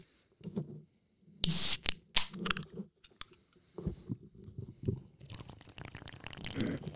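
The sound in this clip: Red Bull energy drink being drunk in quick swallows: bursts of gulping and wet mouth sounds broken by short pauses, ending in a brighter fizzing hiss.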